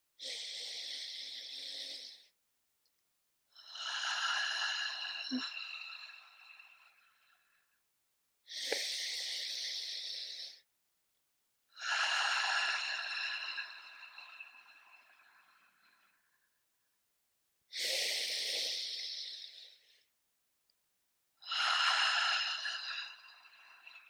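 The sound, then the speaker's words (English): Deep breaths drawn in through the nose and let out through the mouth: three slow breath cycles, each a short, bright airy inhale followed by a longer, softer exhale that fades out, alone with no talk. “We'll take those 3 deep breaths now, in through the nose, out through the mouth.”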